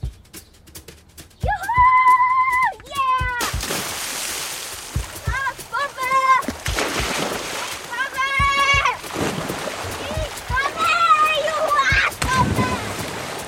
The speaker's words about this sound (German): Ich kann Arschbombe. Wir haben noch keine Badehosen dabei. Ihr könnt nackig reinspringen oder in Unterhose.